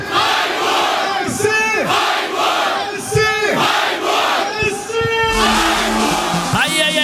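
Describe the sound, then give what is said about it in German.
Thousands of football fans chant and cheer loudly at a trade-fair venue in Freiburg before a cup match. A dense crowd sings in unison with swelling, repeated sung phrases that carry on throughout. “Willst du mir mal zeigen, wie gut die Fans heute drauf sind? Absolut, hört mal zu.”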